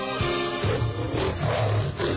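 Lions roaring: deep, rough, growling roars rumble on without a break, rising and falling in loudness across the stretch.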